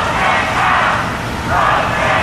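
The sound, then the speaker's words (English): Loud, continuous crowd noise with overlapping shouting voices greets President Trump as he arrives at the Supreme Court to pay respects to the late Justice Ruth Bader Ginsburg. It holds steady throughout, dipping briefly in the middle before swelling again. “When President Trump arrived at the Supreme Court to pay his respects to the late Justice Ruth Bader Ginsburg, this was the reaction from the crowd.”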